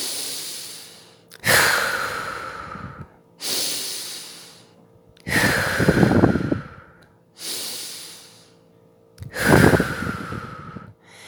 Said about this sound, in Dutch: haal ik weer een keer of drie diep adem door mijn neus in en uit via mijn mond